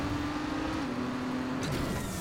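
Racing car engine at full throttle in the Trackmania video game, a steady buzzing engine tone that drops sharply in pitch near the end and is continuous and fairly loud.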